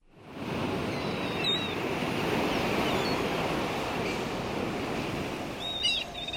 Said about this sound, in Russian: На море бушевала непогода.